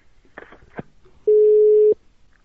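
A single steady, mid-pitched telephone busy-tone beep sounds once the other party hangs up on the call. It lasts well under a second, is loud and clear, and follows a few faint, brief knocks.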